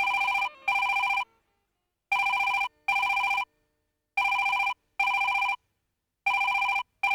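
A telephone rings while a call is placed, sounding in a double-ring pattern: four pairs of short buzzy rings separated by pauses, the last pair cut short.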